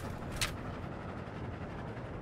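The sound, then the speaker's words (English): Steady low rumble of a passenger train moving along the track, heard on board, a broad continuous roar with one sharp click near the start. “As the train keeps moving along the track, Elmo”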